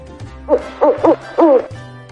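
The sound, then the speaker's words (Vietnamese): Plaintive cooing from a large bird, given as a sound effect: four soft, tonal hoots in a short, uneven series, each with a wavering, bending pitch. “Cửu Phong bị sờ soạn trong chốc lát, đột nhiên phát ra tiếng ục ục đầy tủi thân.”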